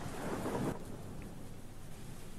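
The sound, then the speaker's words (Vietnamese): Thunder rumbles deep and loud at the start of a heavy rainstorm, then cuts off and leaves a steady, dense hiss of falling rain alone. “Trời chẳng hiểu sao bắt đầu đổ mưa, sấm sét cứ đùng đùng đoàng đoàng.”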